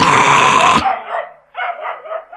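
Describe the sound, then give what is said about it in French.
A small dog barks and snarls with bared teeth while facing a lion: a few sharp, yappy barks with a growling edge, loud and clear with no voices. “Courageusement, le petit chien Toto aboie en montrant les dents.”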